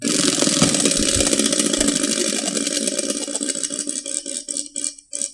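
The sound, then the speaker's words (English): A prize wheel spins, its clicker giving off a rapid, dense rattle of ticks. The ticks grow sparser and slower toward the end as the wheel winds down. “Spin the wheel. Let's spin the wheel. All right, let's spin the wheel.”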